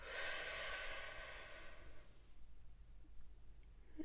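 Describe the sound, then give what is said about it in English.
A single inhale through the nose during a guided breathing exercise: a soft, breathy hiss that swells for about two seconds, then fades into faint quiet. “we're going to breathe in through the nose and out through the mouth. Here we go. In through the nose.”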